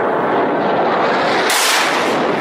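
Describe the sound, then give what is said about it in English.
A dense, continuous roar of explosive rumble from Saudi-led coalition airstrikes on Houthi rebels in Sana'a, Yemen, loud and unbroken throughout with no separate blasts standing out. “Those are the sounds of the Saudi coalition and their airstrikes.”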